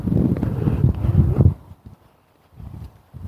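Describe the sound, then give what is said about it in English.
A light breeze of wind blowing, low rumbling gusts that buffet loudly for the first second and a half, then fade to near quiet before picking up again more faintly. “Oh, that wind. It's just a touch of breeze. And it's right in my face.”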